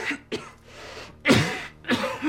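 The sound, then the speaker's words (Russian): A young man coughs into a handkerchief, giving a few rough, breathy bursts with short gaps between them, over a soft, steady background. “кашляет, закрывая рот платком”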